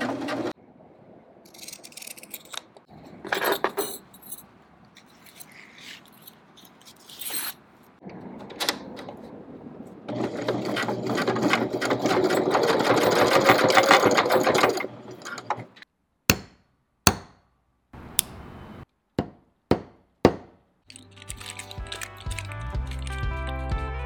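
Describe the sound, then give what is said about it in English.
A sewing machine stitches a strap, running in several short whirring bursts and one longer stretch of steady mechanical rattle, followed by a few sharp clicks. “This pattern tends to bunch, so I have to like sew it a different way.”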